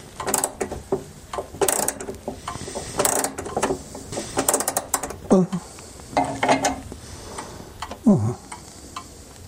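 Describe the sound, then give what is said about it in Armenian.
A 60-year-old wall clock is wound with an iron key, giving irregular mechanical clicks, ticks and small rattles with a few brief squeaky scrapes. “Իսկ հարևան Դաթիկոն երկաթյա բանալին ձեռքն է առնում ու զգուշորեն լարում պատի 60-ամյա ժամացույցը, հանկարծ ամանորի գիշերը կանգ չառնի”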